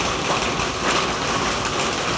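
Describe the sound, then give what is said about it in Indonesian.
Rain falls steadily, making a continuous, even hiss of dense drops with no talk and no clear breaks. “Di sini lagi hujan.”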